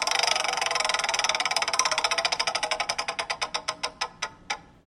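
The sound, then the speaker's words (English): A game show prize wheel spins with a fast run of sharp ticks that gradually spread out and slow, then end in a few final clicks as the wheel comes to rest. “we're going to spin the wheel and get you a category”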